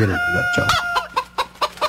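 A rooster gives a drawn-out, crow-like harmonic call, then breaks into several short, sharp clucks in a quick, uneven rhythm.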